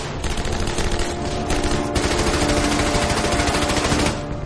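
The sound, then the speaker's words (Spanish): Sustained fire from German machine guns in a war drama: a dense, rapid, continuous rattle that holds loud throughout and tapers off at the very end. “Mientras avanza, escucha cómo disparan las ametralladoras encima de él, pero cuando sube, los disparos cesan.”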